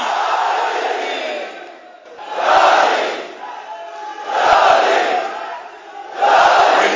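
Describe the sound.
Crowd shouting in response to the Naara-e-Haidari slogan: loud, massed voices surge in three strong shouted bursts, with quieter, murmuring stretches between them.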